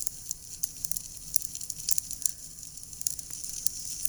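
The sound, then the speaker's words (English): Crackling fireplace: irregular sharp pops and snaps over a faint steady hiss, fairly quiet, with no voices. “Oh, it's like a fireplace or something. It's 2 hours long, so we could be here for 2 hours.”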